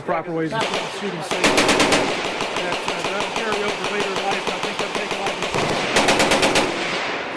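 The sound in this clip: Loud bursts of automatic gunfire from firearms during a shooting session, many rapid shots fired in quick succession with short pauses between volleys.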